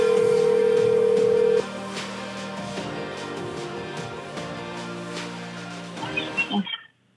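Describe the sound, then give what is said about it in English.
A telephone line tone sounds while calling someone. A loud, steady pitched tone holds for about a second and a half, then drops to a quieter sustained hum. It breaks into a few faint blips before cutting to silence. “We'll call him for the fuck of it.”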